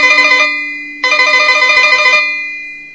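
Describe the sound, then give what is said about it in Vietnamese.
A telephone rings in an office in two loud electronic bursts, the first short and the second longer, each a rapid warbling trill with a steady tone beneath it, then fading. “Ông Trân vào phòng làm việc, vừa ngồi xuống ghế thì chuông điện thoại reo vang”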